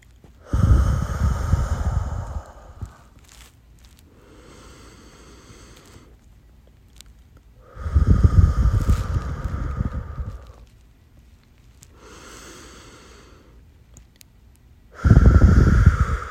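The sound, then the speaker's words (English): Slow deep breaths, about three long, loud, rushing exhalations separated by quieter, softer intakes of air, in an even, unhurried rhythm with no talking. “we should just take a couple deep breaths”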